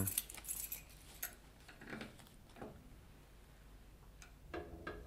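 Keys to a safe jangling, soft metallic clinks and rattles bunched mostly at the start, with a few fainter clicks afterward in an otherwise quiet scene.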